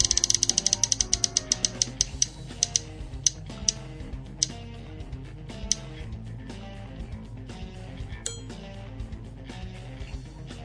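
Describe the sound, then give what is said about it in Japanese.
Roulette spin sound effect: rapid mechanical clicking that starts fast and gradually slows into sparser ticks over about ten seconds. “次の第51回目のお題のルーレットいきたいと思います。ルーレットスタート”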